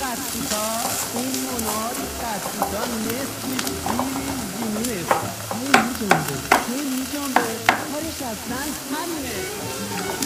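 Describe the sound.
Potato chips frying in oil, with a steady crackling sizzle and stirring clatter, a few sharp pops standing out, while a voice talks over the cooking.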